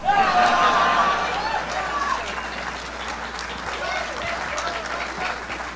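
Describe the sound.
Loud applause and cheering from an audience in Indiana welcome a speaker at a political event, a dense continuous roar of clapping and shouting voices that is strongest at the start and stays full throughout.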